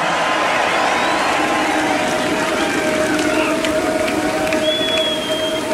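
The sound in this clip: A festival crowd at a metal concert cheers and roars in a dense, loud, steady wall of noise that holds for the whole stretch.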